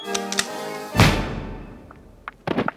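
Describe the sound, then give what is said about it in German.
A single gunshot sound effect in a radio drama: one loud, abrupt crack with a long decaying rumble, followed by a few faint clicks and small knocks. “Auf der ziemlich dunklen Promenade ertönte plötzlich im Rücken der beiden Frauen ein Schuss.”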